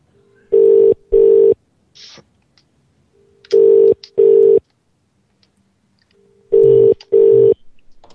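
Telephone ringing: three pairs of short, steady, mid-pitched tones, each pair separated by a pause of about two seconds, loud and alone.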